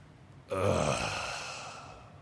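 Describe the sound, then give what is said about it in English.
A voice imitating a groan: one low, drawn-out, mournful utterance that begins abruptly and slowly fades away, heard on its own. “What does a groan sound like? Again, it is a low, mournful sound like,”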